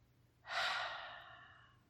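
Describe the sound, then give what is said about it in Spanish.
A single soft breath during a nose-in, mouth-out breathing exercise: a faint, airy hiss that starts suddenly and trails off slowly over more than a second. “Inhala por la nariz, suelta todo el aire por la boca.”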